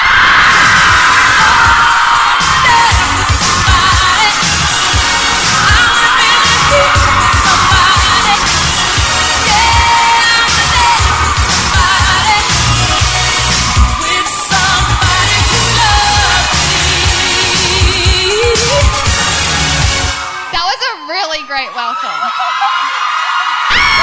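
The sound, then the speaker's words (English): An audience cheers, whoops and yells in a loud, sustained standing ovation welcoming a guest, the dense crowd roar running for about twenty seconds before dropping away as talking begins. “I would love for you to give a huge welcome, a standing ovation, please, to the one and only Miss Hannah Brown.”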